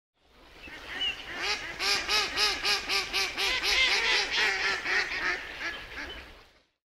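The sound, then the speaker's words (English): Mallard duck quacking heard alone, a long run of loud, rhythmic quacks in quick succession that build up, hold steady and then fade out. “Mallard duck.”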